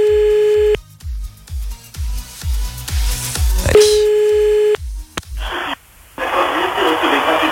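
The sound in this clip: A telephone call is dialed live on a late-night radio show: steady beeping tones and short tone bursts sound over a thumping background beat, ending in a burst of noisy line static.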